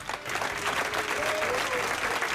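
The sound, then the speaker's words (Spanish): Applause from a referee's colleagues in a room as FIFA announces his appointment to officiate a match: dense, steady clapping that holds at an even level throughout, with faint voices mixed in. “Los que le aplauden son todos sus compañeros presentes en la sala.”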